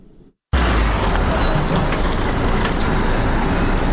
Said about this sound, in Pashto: دا ژغونه د هغه موټرو دي کوم چې په طبي او غیر طبي وسایلو او د غراز په درملو باندې بار دي